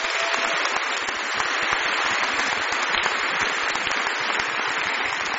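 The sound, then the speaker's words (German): Applause for the IDEA team at a leadership congress, a steady, dense crowd of hands clapping continuously at an even level throughout. “Ich denke, da braucht die IDEA-Mannschaft mal einen Applaus dafür.”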